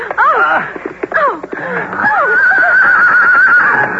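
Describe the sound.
A horse neighs loudly in a quick series of harmonic whinnies that fall in pitch, followed by a longer, sustained wavering call.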